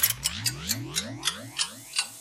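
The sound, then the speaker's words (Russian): An antique clock mechanism ratchets through a run of about eight regular, sharp clicks, each followed by a short rising mechanical whirr, evoking time turning back. “Старинные часы, время назад.”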